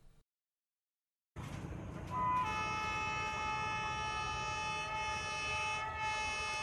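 A train running on rails on a special sightseeing route through Hanoi: after a brief silence, a steady, loud rolling rumble starts abruptly, with a sustained high tonal whine layered over it.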